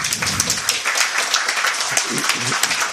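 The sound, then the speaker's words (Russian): Audience applause after a spoken performance, a dense, steady patter of many hands clapping throughout, with a few voices faintly under it. “Зря вы аплодируете, я ведь раздухарюсь и на бис еще раз что-нибудь расскажу.”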